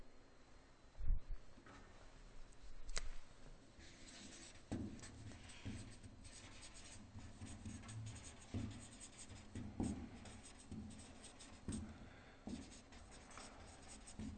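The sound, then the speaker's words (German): Writing on a board produces many short scratching strokes in an irregular rhythm, fairly faint overall, with one louder knock near the start. “Schreib es hier auf. Ich hoffe, ihr könnt es lesen.”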